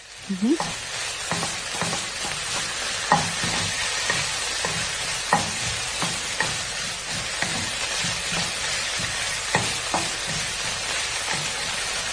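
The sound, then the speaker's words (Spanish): Sea bream loins sear in hot oil in a frying pan. A continuous bright sizzle hisses throughout, dotted with many small crackles and pops. “Y para prepararlo, primero calentamos un poquito en una sartén de aceite y hacemos los lomos de besugo vuelta y vuelta. Como si lo estuviéramos sellando la sartén.”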